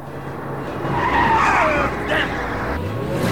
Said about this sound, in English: Rudy skids the car, narrowly missing the two men.